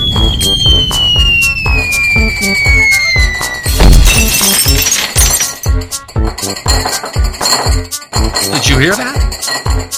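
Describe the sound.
A window shatters in a burst of glass after a grenade blast, set against a loud, steady rhythmic beat. A long, falling whistle leads into the crash, which is followed by scattered clinking fragments.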